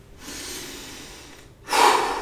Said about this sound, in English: So when we're angry, we're going to take 3 deep breaths.